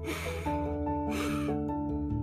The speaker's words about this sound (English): So take a nice deep breath.